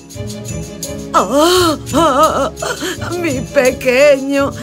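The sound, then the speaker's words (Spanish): Women crying and wailing: several loud, drawn-out sobbing cries with wavering, rising-and-falling pitch, broken by short pauses and gasps. “Cuando se aproximó, vio llorando a tía Polly y a la madre de Phil.”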